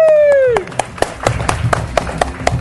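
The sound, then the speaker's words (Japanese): Applause from an audience welcoming a guest. A fading tone gives way to a few sparse hand claps at a steady rhythm, with low talk beneath. “まあ、名前知らなくても拍手してくれると嬉しいですね。”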